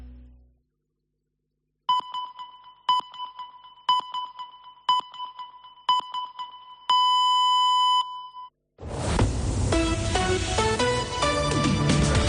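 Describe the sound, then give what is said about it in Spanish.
Radio time signal pips marking half past one in the afternoon: six steady mid-pitched beeps at one-second intervals, five short and a sixth held longer, then music comes in loudly. “Senyals horàries de dos quarts de dues del migdia.”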